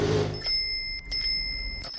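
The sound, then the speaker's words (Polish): A bicycle bell rings three times, each a bright metallic ding that sustains and slowly fades, with a brief muffled noise before the first ring. “Dzwonek oznacza, że będziemy rozmawiać o rowerach.”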